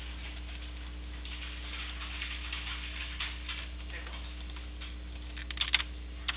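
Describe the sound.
Quiet, rapid keystrokes on a computer keyboard patter through a phone call as a message is typed, with a few sharper clicks near the end over a low steady hum.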